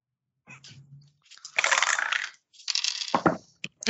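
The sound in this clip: Dice rattling and clattering across a surface during a tabletop role-playing game, heard as a few bursts of sharp, scattered clicks and tumbling noise of uneven loudness, with no talk.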